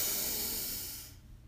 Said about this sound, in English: So let's breathe in